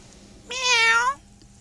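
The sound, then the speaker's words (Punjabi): A cat gives one clear, drawn-out meow, tonal and fairly loud, alone over quiet background with no talk. “ਮਾਣੂ ਬਿੱਲੀ”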